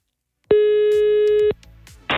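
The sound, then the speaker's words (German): A telephone line tone sounds while a radio contest winner is being called: one steady, bright electronic beep lasting about a second, followed by faint clicks and a brief burst of noise. “Ich darf jetzt die letzte Gewinnerin unserer Aktion anrufen”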